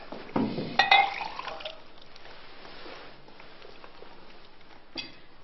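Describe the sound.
Water poured into a glass: a faint, short liquid splash and trickle in the first second and a half, then near silence broken by one small tick.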